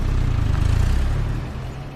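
A car engine hums with a steady low rumble as the vehicle drives up a parking garage ramp. The sound is fairly loud and even, then eases slightly toward the end, with no voices.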